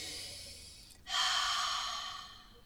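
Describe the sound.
A deep breath taken to calm near-hyperventilation: one long, airy rush of breath that starts abruptly after a quiet moment and slowly fades, with no talk.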